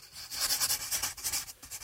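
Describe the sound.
Pencil writing on paper gives a quick series of soft, scratchy strokes in a steady rhythm, faint and heard alone.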